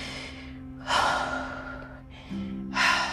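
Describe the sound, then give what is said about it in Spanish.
Active breathing through the mouth, with a few forceful, airy breaths in and out, separated by brief pauses, over a low steady hum. “Con ayuda de una respiración activa como esta,”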